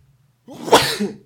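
A single sneeze is heard alone: a quiet intake of breath, then a short, sharp burst that fades out within about a second.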